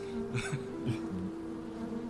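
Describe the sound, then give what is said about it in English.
A queen bee and worker bees buzz near a queen cage set down in front of a hive. The low, steady hum is faint and carries a few brief louder flurries, with no talk. “By the way, the queen bee is still in the cage. You haven't let her out yet.”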